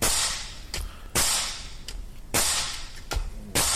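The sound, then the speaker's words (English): Sharp, loud cracks from a DeWalt 18 volt nail gun firing: a series of sudden snapping bursts in quick, slightly uneven succession, each with a brief tail, and no talking. “is this a DeWalt 18 volt nail gun?”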